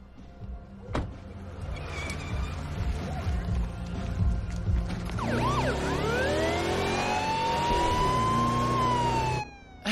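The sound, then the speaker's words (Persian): A police car siren wails in long rising and falling sweeps, entering around mid-clip over a constant rumble of vehicle traffic and cutting off abruptly just before the end. “ببین من البته من عاشق اینم که آژیرم رو روشن کنم و از همه ماشینا جلو بزنم، ولی به نظر خودتون این کار یکم زیاده روی نیست؟”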